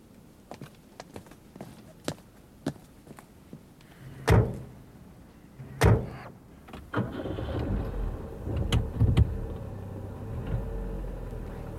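Two car doors slam shut after a few soft clicks, then a car engine cranks and starts, settling into a steady low running rumble with some rattles.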